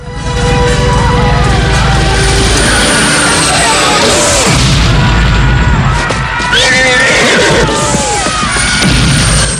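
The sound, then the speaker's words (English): Explosions and helicopter missile fire tear through a village in a Rambo film, a loud dense roar of blasts and crashes with high cries mixed in, continuous throughout. “Villagers scatter and riders are thrown from horseback as explosions blossom around the village. The choppers fire missiles indiscriminately.”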